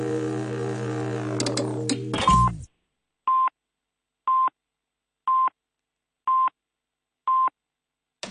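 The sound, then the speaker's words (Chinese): Telephone tones during a call: a dense, sustained tonal sound cuts off abruptly, then five evenly spaced short electronic beeps follow, each at the same steady pitch and loudness with silence between them. “okay、 我打电话俾阿 Boris Johnson 啦”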